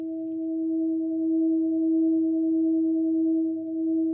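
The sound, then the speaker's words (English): A handcrafted full moon Himalayan singing bowl resonates, captured from inside the bowl: a pure, sustained ringing tone with a fainter higher overtone, holding steady throughout with a gentle, slow pulsing swell in loudness. “Our binaural microphone records lifelike sound, and what you're hearing now is the sound inside the bowl.”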